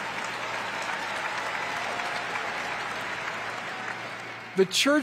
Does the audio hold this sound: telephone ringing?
no